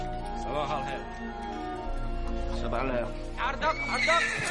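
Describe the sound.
A horse whinnies several times in a medieval film scene where greyhounds and riders arrive, the neighs rising over background music and a speaking voice.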